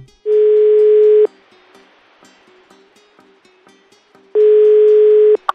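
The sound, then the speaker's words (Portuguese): Telephone ringback tone while placing a call: two steady, mid-pitched one-second tones separated by about three seconds of near quiet, ending with a short click. “Vamos ligar para Gabes.”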